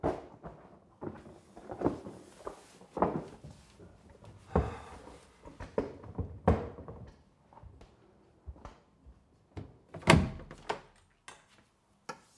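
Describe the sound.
A door closing, heard among a scattering of soft thuds and clunks, with one louder impact near the end.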